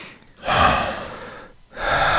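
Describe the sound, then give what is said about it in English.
Two deep, loud breaths are drawn one after another, each a long airy rush, and the second is cut off at the end. A person is being calmed down. “Let's take a few deep breaths.”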